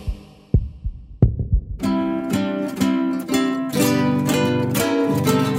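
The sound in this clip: A heartbeat sound effect begins a musical sting: two deep, low thumps, then music enters with a steady pulsing beat underneath.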